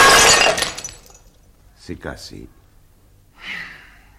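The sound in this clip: A porcelain vase, bowled across the floor like a bowling ball, shatters in one loud, bright crash that fades within a second. Brief breathy vocal sounds, like a gasp and a sigh, follow in the quiet.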